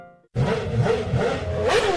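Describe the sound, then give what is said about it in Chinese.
Motorcycle engine revving as the throttle is opened: a sudden loud mid-pitched roar cuts in after a brief quiet moment and surges repeatedly, swelling and easing in quick pulses. “你骑太慢了啦，再慢一点我可就不等你咯。 少得意了，看我油门吹下去”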